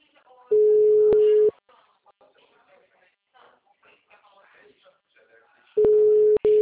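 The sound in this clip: Ringback tone of an outgoing telephone call: two long, steady, mid-pitched tones separated by a long gap, with faint muffled talk in between.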